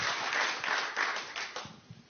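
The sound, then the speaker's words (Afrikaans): An audience applauds to welcome an author who has travelled from New Zealand for a book event. The steady clapping softens toward the end. “So, ons geef hom nog 'n handeklap, dat hy behoorlik welkom voel.”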